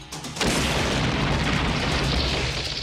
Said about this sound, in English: That was a bomb?